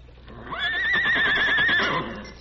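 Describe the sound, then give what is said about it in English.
A horse gives a single loud, high whinny. Its shrill, wavering tone swells in, holds for just over a second, then fades out, with no talk. “he got to his feet as the distant sound of many hoofs came to his ears. Many horsemen ride slow along trail to town. That sounds like Silver.”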